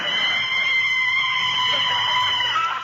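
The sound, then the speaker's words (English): A car brakes suddenly in a radio drama, its tires letting out a sustained, high-pitched screech that stays steady and loud for about three seconds. “Gosh, boss, how could you reach the brake from the back seat?”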